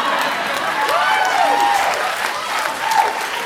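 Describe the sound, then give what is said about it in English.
Audience applause fills the whole stretch as dense, steady clapping at an even level, with a few faint whistle-like tones gliding through the middle and again near the end. “I don't know why you're clapping.”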